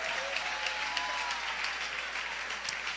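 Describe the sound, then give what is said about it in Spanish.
An audience at an evening church service applauds with steady, even clapping that is faint and continuous, with no voices standing out. “démosle un aplauso en esta hermosa noche a Jesús.”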